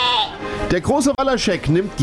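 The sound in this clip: Sheep bleat several times in quick succession, each call loud, wavering and nasal.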